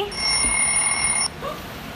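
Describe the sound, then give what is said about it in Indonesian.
A telephone rings with an incoming call: one bright, high-pitched ringing burst lasting just over a second, then it stops abruptly, leaving a quieter background. “Wah ada penelpon lagi nih”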